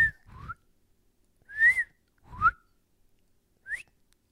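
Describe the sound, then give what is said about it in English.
A person imitates a whistle with their mouth: a few short, high, clear whistled notes rising in pitch, spaced apart and heard alone with some breathy sound at the starts. “But basically, we heard fucking a whistle like that, like what we just did.”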